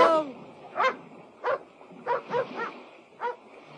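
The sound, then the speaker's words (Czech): A clever pet dog barks several times in short, sharp bursts, spaced unevenly with brief pauses between them, loud and clear without talk. “Podívej, Kitty! Přišel až k němu! Je to chytrý pes.”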